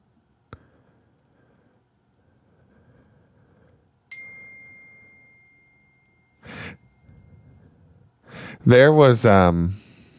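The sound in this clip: A phone text-message notification ding sounds once: a bright chime that rings out and fades slowly over about two seconds in near silence, with a voice starting to talk a few seconds later.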